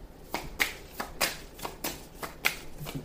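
Cards are handled and shuffled in a run of many crisp, quiet snaps and soft riffling slaps at an uneven rhythm.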